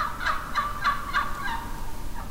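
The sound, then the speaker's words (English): A wild turkey hen calls to a gobbler during the mating season in Michigan. Several short, nasal, high yelps come in a steady, evenly spaced series, fading slightly toward the end, with no voices. “it is basic turkey communication. It is also commonly used by a hen to communicate with a gobbler during mating season.”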